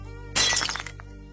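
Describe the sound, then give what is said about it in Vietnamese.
A bowl of vối tea shatters in an elderly person's tightly clenched hand: one sudden loud crash, followed by scattered fragment clinks that fade within about half a second and a faint later tinkle. “bàn tay siết chặt đến nỗi cái bát nước vối đang cầm ở trên tay của cụ vỡ tan tành.”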